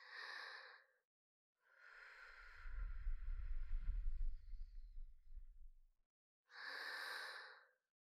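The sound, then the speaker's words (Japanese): Gentle blowing of breath: three soft, airy puffs, the middle one long and carrying a low rumble, the first and last short and faint. “ふうふうしてあげる。”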